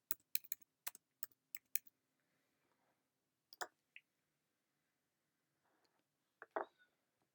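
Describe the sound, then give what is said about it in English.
Typing on a computer keyboard: quick bursts of crisp key clicks, then a pause and a few sparse, scattered keystrokes, all fairly faint with no talking. “I got to do something real quick. Bear with me. I got to type it in.”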